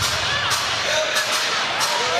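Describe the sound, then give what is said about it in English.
Basketball arena crowd at a college game between Maryland and Wisconsin, roaring in protest and wanting a foul called after a scramble; a sustained, loud wash of crowd noise with no clear breaks. “And the crowd wanted a foul on a Terrapin, but that was Chucky who got him in that scramble for the Klesman.”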